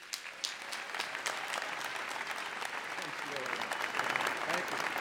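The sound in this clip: Audience applause welcoming convocation speaker Rudy Giuliani, a crowd clapping in a thick, continuous patter that swells gradually and grows loudest toward the end.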